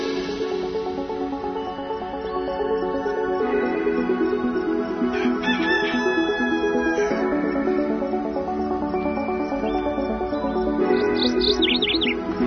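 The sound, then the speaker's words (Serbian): Bird chirps woven into a radio show's closing music jingle: short tweeting bursts over a full, steady instrumental bed, most noticeable midway and again near the end. “Pevač i ptičice, glavni junaci naše odjevne špice.”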